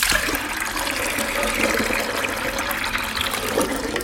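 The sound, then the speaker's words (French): Clear water runs and splashes over freshly churned butter as it is rinsed, a steady, fairly loud rush of water with no talk. “Vous avez rincé le beurre plusieurs fois à l'eau claire”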